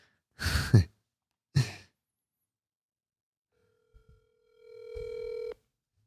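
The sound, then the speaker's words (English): A telephone ring tone sounds as a call is placed, a single sustained electronic tone. It follows two short, breathy bursts and a quiet gap. “Let's give them a ring. See if they're still awake.”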